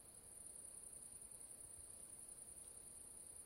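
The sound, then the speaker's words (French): Crickets fill a summer night at Les Fioles with a faint, continuous high-pitched trill, steady and unbroken, over a very quiet low background with little else stirring. “Finissons avec un fond sonore plus agréable avec cette nuit d'été captée aux Fioles.”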